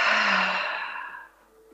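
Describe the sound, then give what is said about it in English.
A single long, breathy exhale after a deep breath, sighing out softly and fading away within about a second, with no other sound. “Take a deep, deep breath. And exhale.”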